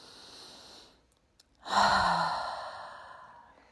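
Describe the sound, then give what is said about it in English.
A long, deep breath exhaled through the mouth during a guided breathing exercise. It starts with a loud, breathy onset and slowly fades out, after a quieter, softly breathy stretch. “Inhale through your nostrils and mouth open, exhale. And let's do that 3 times.”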